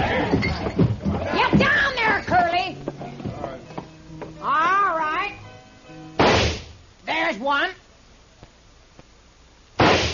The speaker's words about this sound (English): Stand aside, boys! Mamie's gonna limber up her shooting irons and get out of the way!